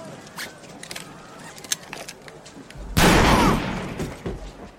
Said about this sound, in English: How to kill Bob? Like, for no good reason, just shoots Bob.